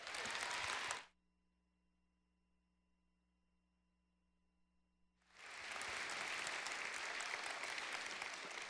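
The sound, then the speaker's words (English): Church audience applauding a guest speaker: a loud burst of clapping cuts off into about four seconds of near silence with a faint hum, then the applause swells back and carries on steadily. “I need you to put your hands together, give a warm, Abundant Life welcome to our friend, Danielle Strickland.”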